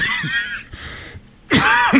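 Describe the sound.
A person coughing during a formal statement in cold and flu season: a few harsh, loud coughs with a throat-clearing rasp, separated by short pauses.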